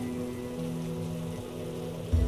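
Rain falling as a steady, even hiss of fine patter over a low continuous hum, with a brief low thud at the very end.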